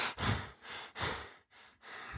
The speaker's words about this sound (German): also kurz den Atemapparat hier in Gang setzen, einatmen, ausatmen.